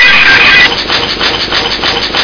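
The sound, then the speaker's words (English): A taxi engine drones loudly as the car drives toward a studio. The rumble is dense and steady, holds for the whole stretch, and has no voices over it. “There's a taxi driving to the studio!”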